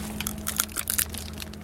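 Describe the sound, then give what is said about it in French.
Brittle crunching as a fresh almond with a rigid shell, just fallen from the tree, is cracked open: a quick cluster of dry snaps and crackles lasting about a second, with no talk. “Euh, je vais en casser une.”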